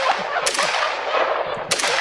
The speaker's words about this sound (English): It's just a piece of paper right here. I'm going to shoot it now.